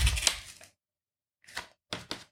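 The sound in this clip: Light papery rustling and tapping on a torn-open paper envelope checked for powder: a brief crinkly burst, a pause of silence, then a few sharp, dry taps.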